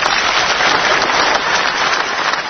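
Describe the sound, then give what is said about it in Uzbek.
Dense, steady applause from an audience honoring foreign guests at an official gathering, a continuous loud wash of many hands clapping with no break and no voices over it. “Mehmonlarimizga qaratib qarsaklar quyuqroq bo'lsa ham bo'lardi.”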